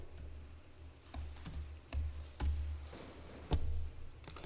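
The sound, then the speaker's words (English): Typing on a computer keyboard: irregular, crisp keystroke taps in quick runs, a few strikes louder than the rest, over a faint low hum. “Oh, if only I could type. Type all day, you would think I would do it.”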